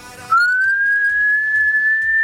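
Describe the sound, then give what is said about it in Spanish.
Someone whistles a single sustained note with tongue or lips. It begins after a brief quiet moment, slides slightly upward, then holds clear and fairly steady to the end. “¿Silbar? Sí, no se me da mal.”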